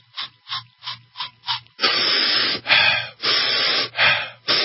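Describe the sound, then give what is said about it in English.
An aerosol spray is pumped in a quick, regular series of short hissing puffs, followed by several longer, louder breaths drawn in rapid succession. “And for adults, what I use is 6 sprays, just like this, and then take 3 quick breaths like this.”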